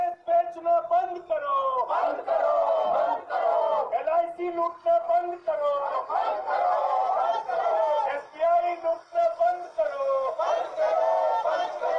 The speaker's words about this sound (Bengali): আজ রাজ্যসভার বিরোধী এমপিরা কেন্দ্রীয় সরকারের কাজকর্মের প্রতিবাদে দিল্লির বিজয় চক পর্যন্ত মিছিল করেন। এ সময় তারা বিভিন্ন স্লোগান দেন।